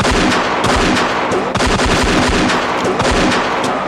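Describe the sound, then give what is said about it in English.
Loud gunfire in a dramatic shoot-out. Many rapid, sharp shots come in dense, continuous bursts, with almost no break between them. “Shoot, you fool, shoot!”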